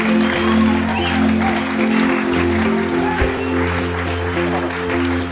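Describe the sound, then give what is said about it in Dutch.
Church audience applauding during a service, steady clapping held at an even level throughout, with a sustained low tone running underneath. “Come on, let's give Peter a hand.”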